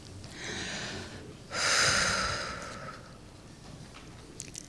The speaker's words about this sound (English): Take a deep breath.